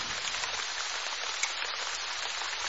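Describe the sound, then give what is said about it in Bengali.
Heavy rain pours down in a steady, dense hiss of countless drops striking surfaces. It stays even and unbroken throughout, with no voices or other sounds. “শুধু ঝমঝমে বৃষ্টির আওয়াজ”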